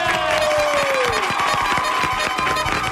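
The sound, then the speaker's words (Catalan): Studio audience applause and cheering from a crowd in a game segment, a dense, loud, continuous roar of clapping, with a whistle-like tone sliding downward in the first second. “Va, públic de Gelida i de Luxemburg, un fort aplaudiment”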